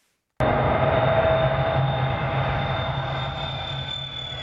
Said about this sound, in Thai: และนั่นก็เป็นเสียงของเที่ยวบินของบริษัท Virgin Galactic ที่ทดสอบยาน SpaceShip 2ที่เดินทางขึ้นฟ้าจากทะเลทรายในรัฐแคลิฟอร์เนีย